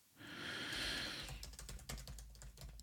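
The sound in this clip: Typing on a computer keyboard while writing a note: many quick, irregular key clicks, fairly quiet, with no voices.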